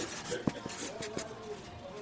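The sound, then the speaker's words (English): Handwriting on paper as an order is noted down in a small shop, heard as soft scratchy pen strokes, a few sharper ones, beneath faint murmuring voices and background noise. “What are you writing up here? It's the order that came in today.”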